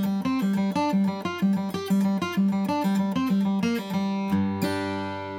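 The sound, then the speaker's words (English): Guitar pull-offs from single-string scale notes, each followed by an upstroke on the open G string, in a steady run of quick plucked notes with a recurring lower open-string tone. The phrase ends on one sustained ringing note. “And all I'm doing is pulling off of the scale note and then following through with an upstroke on the open G string. It's gonna sound like this.”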